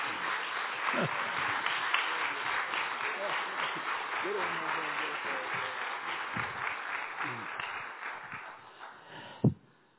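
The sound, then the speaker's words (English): A church audience applauds to welcome a preacher to the pulpit. The clapping is dense and steady, with voices calling out over it, and it thins toward the end, where one sharp thump stands out. “Would you stand up, put your hands together, and welcome Brother Larry as he comes to share the word with us.”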